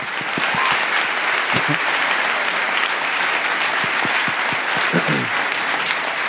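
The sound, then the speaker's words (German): Sustained applause from a live show audience: dense, steady clapping that fills the whole stretch, with a few sharper individual claps standing out and no talking. “Danke euch, einen riesen Applaus für Tim und Jana.”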